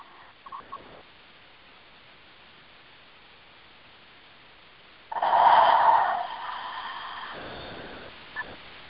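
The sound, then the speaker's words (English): A person breathing in deeply: one slow, airy inhale lasting about two seconds after a long quiet stretch. It is soft and breathy, heard alone with no talking. “So everybody breathe that in, please. Just breathe that in.”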